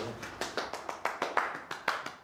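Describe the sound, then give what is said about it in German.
Applause for readers after a read-aloud session comes as a steady run of many crisp, evenly spaced claps. The clapping is sparse and regular rather than a dense crowd roar. “Wir sind fertig. Gut. Ein Applaus für die Vorleser.”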